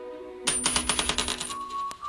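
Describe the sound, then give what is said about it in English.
A flipped coin lands with a bright metallic ring, then rattles in a quick run of small bounces that fade away before a final faint ring. “Heads yes, tails no. All right, here we go.”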